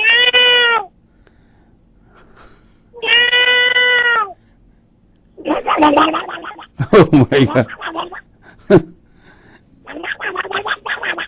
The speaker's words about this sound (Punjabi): ਲੈ ਵੀ ਬੱਲੇ ਉਸਿਆ, ਬਿੱਲੀ ਵੀ ਪ੍ਰੋਗਰਾਮ ਪੱਕਾ ਸੁਣਦੀ।